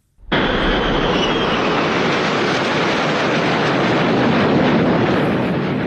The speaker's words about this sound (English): Of course, there were several flyovers, this one included, ahead of this spectacular race now underway.